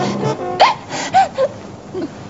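A young child cries behind a locked door after about an hour of nonstop weeping. A few short, breathy whimpers and wailing sobs rise and fall, with gasping breaths between them.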